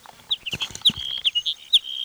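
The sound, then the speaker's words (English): A hedge sparrow sings a run of short, high, thin chirps and tweets. The notes come in an uneven sequence, some clipped and some slightly drawn out, fairly clear against a quiet background. “Hedge sparrow number two.”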